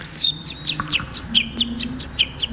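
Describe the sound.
A voice imitates contented chicken chicks, giving a rapid run of many short, high, downward-sliding peeps in an even rhythm, with a faint low hum beneath.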